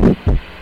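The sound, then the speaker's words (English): A heartbeat sound: two deep, heavy thumps in quick succession, followed by a low, steady hum that carries on alone to the end. “It's God's heart beginning to beat for you.”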